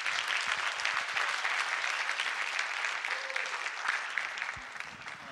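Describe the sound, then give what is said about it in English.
An audience applauds to welcome a guest pastor at a church service. Dense, steady clapping fills the whole stretch and eases off slightly at the end. “So, Life Center, would you put your hands together and welcome my good friend, Pastor Dan Leehan, as he comes.”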